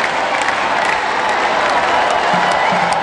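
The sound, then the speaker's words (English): Applause and cheering roar from a crowd of more than 17,000 at an indoor women's volleyball match between Wisconsin and Marquette, a dense, continuous wash of clapping and crowd noise at steady high loudness throughout. “That is the sound of more than 17,000 people at a women's volleyball match between number one ranked Wisconsin and Marquette.”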